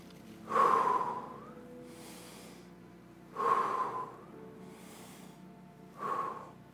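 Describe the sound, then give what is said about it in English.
Deep breaths drawn in and released, repeated three times: each loud, airy inhalation is followed by a softer exhale in an even, slow rhythm, fairly quiet with no talking. “I want you to take a deep breath in, and I want you to release it, and let's do that three times.”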